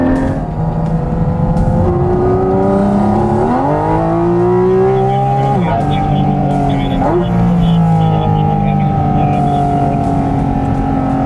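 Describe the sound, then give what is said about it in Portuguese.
A 718 Cayman GT4 RS sports car driving: a loud, steady engine roar with a harmonic note that climbs, then drops sharply at gear changes before climbing again. “O nosso test drive do 718 Cayman GT4 RS fica por aqui.”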